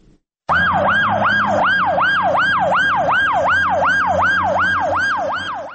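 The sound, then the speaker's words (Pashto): An ambulance siren wails outside an emergency hospital in Lashkar Gah. It is a loud, fast wail that rises and falls steadily through many rapid cycles, with a low engine rumble beneath it. “د لشکرګاه د ایمرجنسی روغتون مخې ته د څلورم امبولانس ته چې هر یوې په نوبت ټپیان راوړي”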